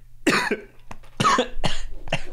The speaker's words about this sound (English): Excuse me. I can hear that you're sick. Yeah. Oh, that's awful too, because I'm just going to be coughing for the rest of the episode.